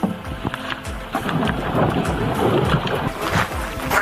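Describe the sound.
Kayak and canoe paddling training for young athletes on flowing river water in Fergana: a steady rush of water and wind with intermittent soft paddle splashes.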